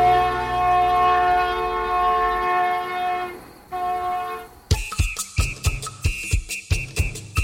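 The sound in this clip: A train sound effect: two sustained, multi-tone train horn blasts, the first long and the second shorter, followed by a quick, regular run of many sharp wheel clacks on the rails.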